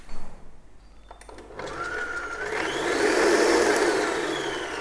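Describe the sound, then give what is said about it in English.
An electric stand mixer runs while beating a batter before eggs are added, giving a steady motorized whir with a thin whine that climbs in pitch and swells louder midway. “So, now back to our mixer. Let's see how that's going.”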